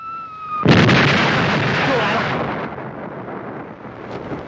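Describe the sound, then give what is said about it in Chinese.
Enemy artillery fire: a sudden loud, booming blast that breaks into a long, rolling rumble and slowly fades over several seconds. “敌人炮火封锁的厉害”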